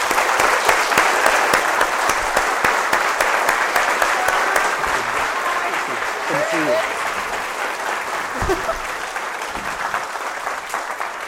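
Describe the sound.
Audience applause welcoming a speaker onto the stage at a UCSB event: dense, steady clapping sustained throughout, tapering slightly toward the end, with a voice briefly audible beneath it.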